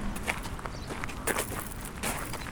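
Footsteps of people walking on through an art exhibition: a steady, overlapping patter of steps that continues evenly throughout, with no talk.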